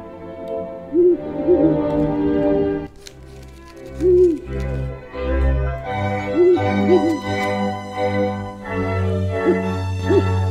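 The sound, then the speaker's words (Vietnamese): Eerie hooting of a flock of owls flying into a village, with a few soft, low hoots that recur every couple of seconds over droning background music. “bầy chim cú nó bắt đầu lượn lờ bay vào trong làng, kêu lên đến rùng rợn.”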